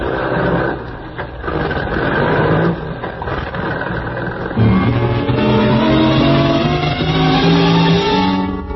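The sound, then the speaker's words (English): A truck engine driving around a loading platform, heard as a steady, rumbling motor drone throughout, growing slightly louder and deeper partway through, with humming engine tones holding under the noise. “You swing the truck around the loading platform where you agreed to meet the Baron.”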